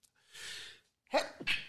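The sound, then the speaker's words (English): A person sneezes: a drawn-in breath, then a sharp, loud sneeze burst, followed closely by a short second burst, with no talking around it. “sneezing in the middle of a story here. Holy cow.”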